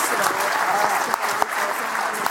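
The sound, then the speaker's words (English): A round of applause from a live event audience: loud, continuous clapping from many hands, with a few sharper individual claps standing out from the steady wash. “All right, everyone, round of applause for everybody.”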